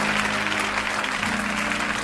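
Applause from an audience at a church worship service. The clapping is dense and sustained, holding at an even loudness for the whole stretch with no talk over it.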